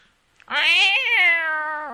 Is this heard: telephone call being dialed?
no